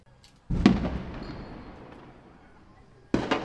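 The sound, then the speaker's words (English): Two sharp explosive blasts during a military raid on a residential neighbourhood, each a loud crack trailing off in a long fading tail, the second arriving a few seconds after the first. “That sounds like live ammunition.”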